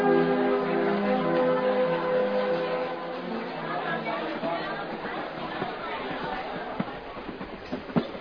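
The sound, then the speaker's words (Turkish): Train number 36 pulling into Genoa railway station: a continuous rumbling roar that eases slightly as it goes on, with crowd chatter and a few sharp clanks near the end. “Gelen 36 sayılı tren Cenova garına girmiş bulunmaktadır.”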